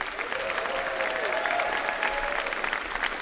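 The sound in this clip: An audience applauds to welcome comedian Steph Tisdall onto the stage at a comedy show, with steady, evenly sustained clapping throughout and no lull.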